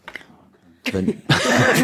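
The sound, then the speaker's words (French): A woman coughing: two harsh, loud bursts of coughing follow brief faint speech, the second burst longer and stronger than the first. “Ah oui, t'es en train de tousser, pardon.”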